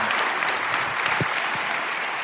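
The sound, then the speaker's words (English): A church audience applauding to welcome a guest pastor: steady, dense clapping from many hands that holds at an even level throughout, with no speech over it. “So if you would make a little bit of noise at all of our churches and welcome Pastor Levi Lusco.”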